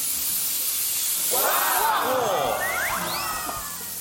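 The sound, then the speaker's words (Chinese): A loud, steady sizzling hiss as yellow wine is poured onto fried Pixian doubanjiang bean paste. The hiss swells in the middle and then eases off toward the end. “炒香的豆瓣酱，烹入黄酒。”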